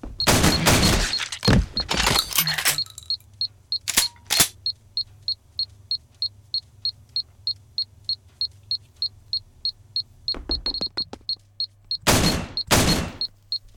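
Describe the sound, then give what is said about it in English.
Sport rifle gunshots in a video game come in a few loud clusters of sharp, crackling bursts, while a steady, rapid electronic beeping repeats evenly throughout. “I use a sport rifle to get him to. Arsenal sniper equipped.”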